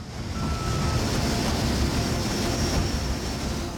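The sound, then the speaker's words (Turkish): A heavy aircraft taking off, a loud, sustained roar of engines and rushing air that stays steady throughout, with a faint high whine riding on top. “Bu uçak epey ağır. Hadi bebeğim.”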